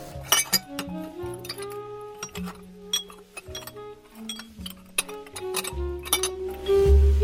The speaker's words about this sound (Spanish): Fingió ajustar un vaso de la bandeja, aguzando el oído.